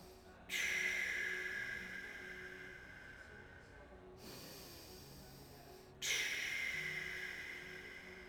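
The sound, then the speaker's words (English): Paced breathing exercise with shorter inhales and longer exhales: quiet, airy nasal breaths that begin sharply and then fade slowly, with no other sound. “We're going to inhale now for two, and we're going to exhale out for four.”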